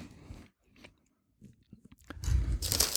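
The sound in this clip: Eating organic tomato-basil potato chips made from potatoes, sunflower oil, tomato and basil: a few faint, scattered crackles and a near-silent gap, then loud, dense crunching chews that fill the final second.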